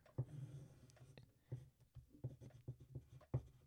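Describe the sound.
Pen writing on a diagram, heard as many faint, scratchy strokes and small taps in an irregular rhythm, with a few sharper ticks standing out. No voices.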